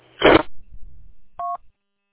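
A single touch-tone beep from a digital radio being direct-dialed. It follows a short, loud noisy burst and some faint low rumbling, then the line goes silent.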